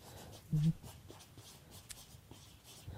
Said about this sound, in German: Ich schreibe zwei Sachen auf.